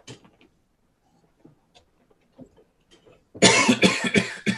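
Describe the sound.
A sudden burst of harsh, forceful coughing follows several seconds of near silence broken only by faint small sounds. The coughs come in a quick run of loud pulses.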